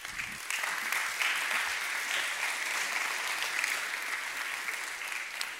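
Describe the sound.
Sustained applause from a church audience welcoming three couples to the front to share about their disciple-making training. Many hands clap in a broad, steady wash that fades slightly toward the end.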